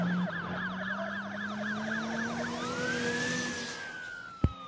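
A stolen police car's siren wails through a fast, repeating yelp before switching to a long, slow rising wail over a low engine tone, followed by a sharp click near the end.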